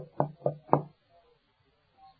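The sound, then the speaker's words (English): Three firm knocks on a door in quick, even succession, followed by near silence. “So He went to heart doors and He began knocking.”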